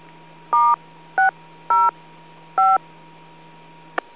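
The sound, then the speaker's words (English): DTMF touch-tone beeps dial a phone number through a radio autopatch: four short two-tone bursts at uneven intervals over a steady low hum, ending with a brief click. “For the emergency, dial *+911. For all others, dial *+area code+number. It helps when you dial the number right.”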